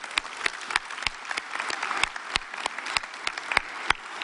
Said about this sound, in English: For those of you in the room, would you please give a big hand to our online and television audience this morning?